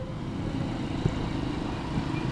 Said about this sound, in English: The ship memorial is right next to the road, hence the constant whir of vehicles.